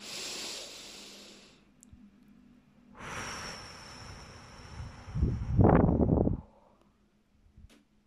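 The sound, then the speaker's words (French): Slow, deep breath in during a guided relaxation exercise: soft, airy breathing noise that swells in a few gentle waves, the last one fuller and louder. “Je vous invite à présent à prendre une profonde inspiration.”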